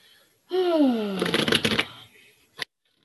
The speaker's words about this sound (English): All right, now we have the goddess card for the week. I'm using the OG deck.